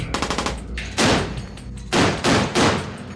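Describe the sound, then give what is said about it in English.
Warship guns fire during gunnery practice aboard HMS Portland. A quick run of lighter rapid shots is followed by four heavy, loud booming blasts, the last three close together. “I've come on board Portland just as they're about to conduct what they call their gunnery serial. They'll be firing all their guns, large and small, check and nail work, and also practicing hitting a target.”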